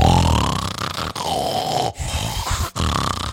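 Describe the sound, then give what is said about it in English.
A person's voice imitates loud, obnoxious snoring with four rough, gravelly snore-like pulls in quick succession, each grunting and strained, separated by brief breaks. “he starts snoring so loud in like the most obnoxious way that like it couldn't have been real. It was”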